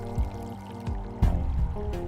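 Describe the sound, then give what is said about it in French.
Water pours and trickles out through small slits cut in a bag used to recover a body from water, a steady flow with a few louder surges throughout. “on perce des petites fentes dans le sac afin que l'eau s'écoule, car l'eau, c'est extrêmement lourd”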